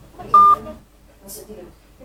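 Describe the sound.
A single telephone keypad tone, a short steady beep, sounds during a phone call that gets an automated unreachable-number message, under a voice speaking.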